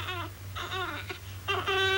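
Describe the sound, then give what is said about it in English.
A baby with colic cries in a few wailing bursts, with pauses between them and a steady low hum beneath. “It's a touch of the colic. He's been crying for 5 minutes.”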